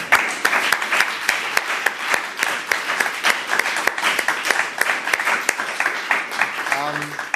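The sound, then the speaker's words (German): Audience applause for competition winners: dense, steady clapping from many hands fills the whole stretch, with a brief voice surfacing near the end. “Also ein ganz großer Applaus für die Sieger und”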